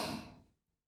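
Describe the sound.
A single deep breath, taken as part of a guided breathing exercise, heard as a soft, breathy rush of air that starts strong and fades away within about half a second.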